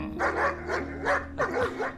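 A dog reacts to a scent with a rapid series of high, whiny yips and short barks mixed with whimpering, moderately loud and sounding agitated.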